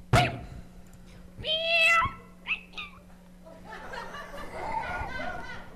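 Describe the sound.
A person imitating a cat's meow, with a few voiced meows: one long, wavering cry followed by two shorter ones, then a stretch of murmuring vocal noise.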